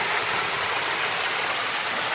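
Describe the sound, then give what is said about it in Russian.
Water of a stream rushes steadily past a mill wheel, a dense, even hiss with no pauses or changes, heard alone throughout. “Ну что, друзья, попробуем снять, как тут вода протекает. Но много тут не видно.”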